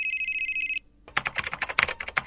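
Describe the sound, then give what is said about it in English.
A phone ringing: a steady electronic tone lasting under a second, then a run of rapid, sharp clicking taps. “Oh, wait. My phone is ringing.”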